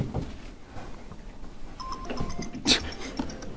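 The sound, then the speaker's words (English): Phone text message notification chimes in a room during a group discussion: a few short, high, bright tones ring out partway through, over low room noise and faint murmuring. “Getting texted.”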